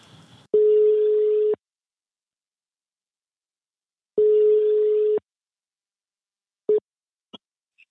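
Ringing tone on an outgoing telephone call: two steady, mid-pitched one-second tones about three and a half seconds apart, followed by a brief beep and a couple of faint clicks.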